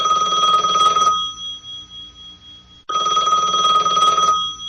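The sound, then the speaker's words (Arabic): A telephone rings in two long, loud trilling bursts separated by a pause of nearly two seconds, with no voices. “وكان طبيعيا أن يتلقى والي الأمن من حين لآخر مكالمات هاتفية من السيد عبد الصادق بن جردون”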